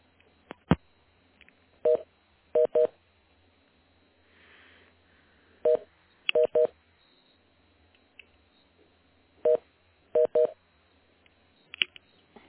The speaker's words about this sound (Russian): Секунду, переключу вас.